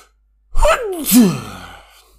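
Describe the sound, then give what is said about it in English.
A single human sneeze: a quick voiced intake sliding down in pitch, then a louder wavering burst that trails off, heard alone with no talk. “there should be one more sneeze. All right, shit, there's one more.”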